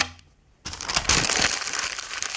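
Paper being crumpled into a ball: a brief quiet lull, then a dense burst of crisp crinkling and crackling that carries on loudly to the end, with no voices.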